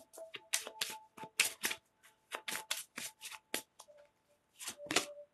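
Tarot cards being shuffled and drawn, with many quick papery riffling bursts in an uneven rhythm, separated by brief pauses, and no talking.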